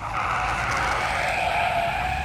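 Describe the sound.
A car speeding along a road and skidding, heard as a loud, steady tire screech over an engine roar that holds for the whole stretch.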